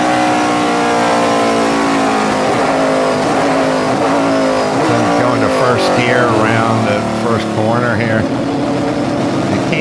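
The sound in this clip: A car engine accelerating, its revving drone steady and loud throughout and climbing in pitch toward the end, while voices talk over it.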